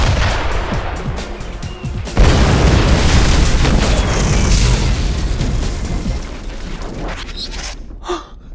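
Cannon fire and explosions in an audio drama battle scene: a heavy blast hits early, followed by a long stretch of rumbling, crackling bombardment that slowly thins out and fades near the end.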